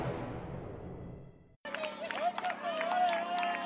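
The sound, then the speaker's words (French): A French crowd cheers and claps at a race, a lively, uneven roar that starts abruptly after a brief silence, with a commentator talking over it. “Les encouragements du public français.”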